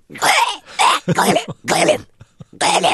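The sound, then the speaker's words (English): A human voice imitating an animal coughing up a hairball: a series of rough, rasping, throaty heaves and hacks, several bursts separated by short pauses. “And you see this ripple going down its spine. And then this sound kind of happens where it kind of comes into the throat, and you see this fur about to being chucked up, and then they sort of go,”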